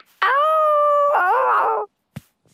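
A dog howls once in a long, drawn-out, tonal cry that holds a steady pitch and then wavers and bends near its end. A brief soft thump follows after the howl stops.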